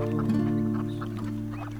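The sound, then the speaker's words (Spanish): Duck quacks in a children's song about two ducks: a few nasal quacking calls over steady, sustained musical tones, fairly loud throughout. “Ay, ¿dónde están mis patos? Salieron los dos patos saludando muy mojados.”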